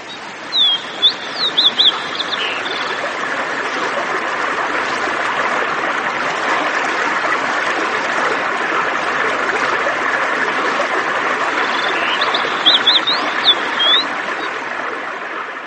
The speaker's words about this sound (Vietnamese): Bè chồng chành, nước bắn tung tóe lên người.